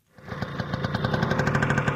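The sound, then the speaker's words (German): An old Vespa scooter engine runs as a farmer rides along a path beside an irrigation channel. The engine fades in quickly, then keeps up a fast, steady putter of evenly spaced pulses that stays fairly loud. “Als sogenannter Waler ist er mit seiner Uralt-Vespa entlang des Scanner Wahlwegs unterwegs gewesen.”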